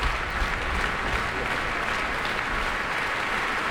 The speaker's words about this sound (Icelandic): og fagnaðarlæti áhorfenda fylgja þeim enn og ný út á sviðinu